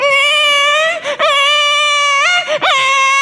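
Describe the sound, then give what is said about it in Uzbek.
An infant cries in long, high, wavering wails broken by two short gasping pauses, loud and alone. “Chaqaloq yig'layapti, qarang.”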